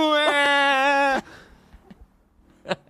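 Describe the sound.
A person's voice imitates crying and wailing with one loud, sustained, slightly wavering wail lasting about a second, followed by a few faint small noises.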